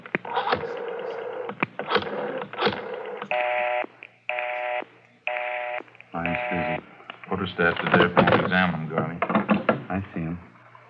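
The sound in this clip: A telephone number being dialed to get an outside line, four steady buzzing keypad tones separated by short gaps, with people talking before and after.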